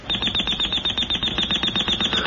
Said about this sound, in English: Oh, turn it off, Ted. What? The alarm, honey.